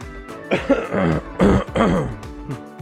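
Throat clearing by a man who has something stuck in his throat: a few rough, voiced bursts of hacking and rasping, clear and fairly loud, separated by brief gaps.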